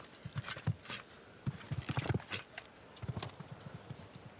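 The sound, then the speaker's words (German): A horse gallops in a show jumping round, its hooves making a fast, irregular run of many soft thuds at a fairly faint level. “Da hat aber wirklich die Galoppade lang gemacht hier.”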